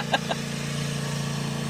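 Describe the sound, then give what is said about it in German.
A lawn mower runs outside, cutting a meadow, giving off a steady, low, buzzing engine drone that holds an even pitch throughout, with two brief sharp ticks near the start. “Knattert im... Mäht er jetzt... Achso, das schon, der mäht jetzt unsere Wiese hier.”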